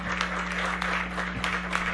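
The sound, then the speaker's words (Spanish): Steady applause from a crowd at a celebration fills the whole clip, a dense patter of many hands clapping at an even level over a low electrical hum. “Así que un aplauso, porque ellos son parte de lo que es Corat a lo largo de su historia.”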